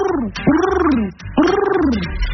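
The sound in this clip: A human voice imitates a pigeon's cooing, producing two long, throaty, warbling coos, each arching up in pitch and then falling away, with a short gap between them.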